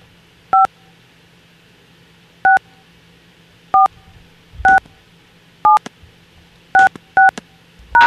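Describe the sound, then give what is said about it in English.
Touch-tone keypad beeps as phone keys are pressed to spell a last name in an automated company directory: a series of short, clear dual-tone beeps at uneven intervals over a faint low hum. “If you know the extension of the colleague, press spell the last name using the keys on your touch tone phone, followed by hash.”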